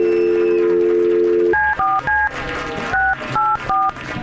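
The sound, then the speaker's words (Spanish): Touch-tone telephone dialing: a steady tone, then six short two-note beeps in two quick groups of three, fairly loud over low background sound. “Dale, márcale. Vamos a marcar.”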